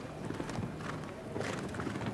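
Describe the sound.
Steady, rhythmic hoofbeats of a horse galloping around a show jumping course, with many dull thuds running evenly through the whole stretch over a constant background rumble.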